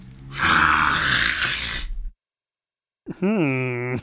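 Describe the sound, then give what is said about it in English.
A loud, rasping sucking inhale drawn through the mouth, noisy and sustained for nearly two seconds, followed after a short silence by a brief voiced groan. “No, that was it. That was the big suck. That was it. You guys didn't hear it? Should I do it again? Oh, you inhaled.”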